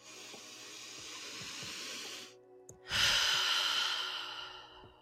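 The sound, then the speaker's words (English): A deep breath taken during a relaxation exercise: a long, airy inhale, a brief pause, then a slow, hissing exhale that fades out. The breathing is fairly soft and no one speaks over it. “So, as always, let's take a deep breath.”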